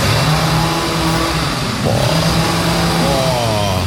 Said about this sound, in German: bei mir werden Bäume verschnitten. Alle 30 Sekunden heult er die Motorsäge auf.